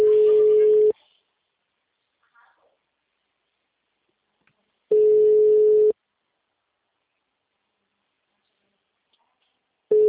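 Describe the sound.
Ringback tone of an outgoing phone call: a steady one-second beep sounds twice, each followed by about four seconds of near silence, and a third beep begins at the end.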